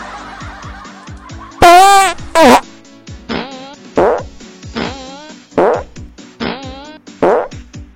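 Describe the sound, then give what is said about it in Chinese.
Farts in a comic farting contest: one long, loud blast with wavering pitch, a shorter burst, then many brief puffs at a steady pace, heard alone without talk. “姑娘，你的屁真的很好听，是我想要的。可是，在第一个屁尾音转音的时候，明显感觉到气息不够。”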